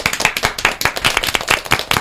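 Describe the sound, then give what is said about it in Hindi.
Audience applause: many sharp hand claps in a fast, steady rhythm, loud and close together, with no talk over them. “बिल्कुल ठीक, बादल में पानी। जोरदार तालियां।”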